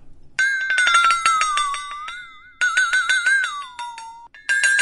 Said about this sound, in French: C'est une lame métallique. C'est une lame métallique très fine. Et il y a deux boules qui tapent dessus de chaque côté.